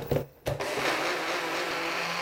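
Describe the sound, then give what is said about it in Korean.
A blender grinds almonds and water into almond soy milk, starting with a couple of short bursts, then settling into a steady, loud, continuous whirring. “자, 이렇게 해서 한 번 더 갈아 보도록 하겠습니다.”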